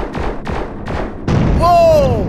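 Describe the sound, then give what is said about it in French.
Explosion of an asteroid shot down in a space video game: a few booming blasts in quick succession, then a louder burst with a falling synthetic whistling tone. “Oh! Ah, hey, ça a explosé.”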